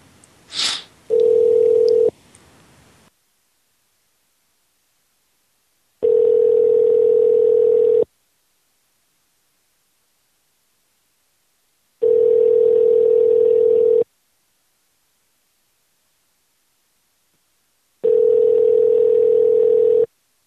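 Telephone ringing tone on an outgoing call: a steady low hum sounds in four bursts about two seconds long, the first slightly shorter, each separated by roughly four seconds of silence, after a brief click and short noise at the start.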